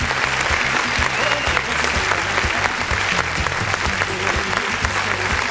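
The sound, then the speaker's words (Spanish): Sustained applause from many people, a loud, uniform roar of overlapping claps with no pauses, keeping the same dense texture for several seconds. “Un aplauso para ustedes, muchachos, por habernos acompañado como siempre.”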